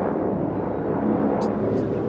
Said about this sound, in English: as this helicopter flies overhead